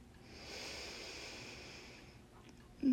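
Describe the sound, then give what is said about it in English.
A slow, soft inhale through the nose during a guided relaxation, a quiet breathy hiss lasting about two seconds before fading. “Maybe a few more deep breaths with me. In through your nose.”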